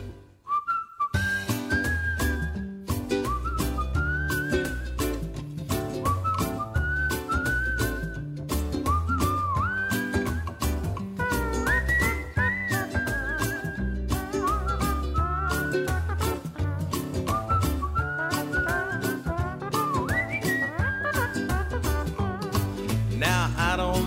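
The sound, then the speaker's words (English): Several people whistle a lively tune, a bright melody running throughout over steady musical backing, with no talking. “Everybody whistle.”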